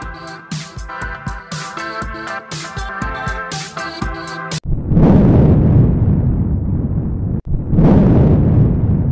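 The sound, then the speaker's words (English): Thunder in two loud, rolling rumbles, each breaking in suddenly after a stretch of music that cuts off; the second crash follows the first after a brief gap and rumbles on to the end. “That sound is called thunder, and when you hear thunder, it means it's going to rain.”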